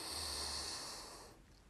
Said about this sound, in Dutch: In door je neus. En uit door je mond.